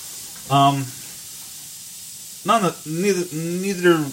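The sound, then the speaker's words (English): Hot dogs sizzle in a pan on a stove with a steady, high, airy hiss that runs throughout, while a person talks over it at intervals. “It is 10:15 at night, cooking hot dogs on the stove with no buns.”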